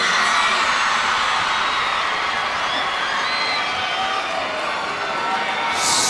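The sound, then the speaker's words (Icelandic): A concert crowd roars and whoops as singer Jón Jónsson is invited onto the stage, a loud, unbroken wall of cheering that stays at full strength throughout. “Og þau verðu að gefa honum alveg brjálu fagnaðalæti af því að þetta engin annar en Jón Jónsson.”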